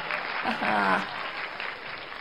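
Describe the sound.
Applause sound effect set off by a yay button, a short burst of dense clapping with a brief swell in the middle, about two seconds long.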